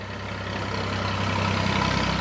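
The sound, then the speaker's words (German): An old tractor rumbles over a gravel path beside a hotel, a steady low engine drone mixed with dense crunching noise that grows slightly louder over two seconds. “Draußen rumpelt ein alter Trecker über den Kiesweg am Hotel vorbei.”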